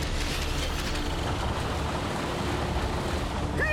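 A fictional ocean-current wave device starts up with a steady, dense rushing roar like churning water, ending in a brief rising tone.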